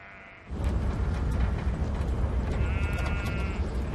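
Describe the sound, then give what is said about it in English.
Sheep bleat across intensively grazed farm fields: two drawn-out, wavering bleats, one at the very start and another later. Both sit over a loud, steady rushing noise that sets in after the first half-second. “this is really intensive sheep grazing”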